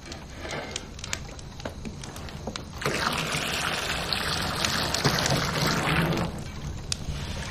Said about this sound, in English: Marty drags a tub in which she pours a steaming pot of water.